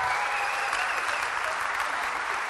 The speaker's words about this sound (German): So won't you just give them a big hand? Gebt ihnen doch einen Applaus.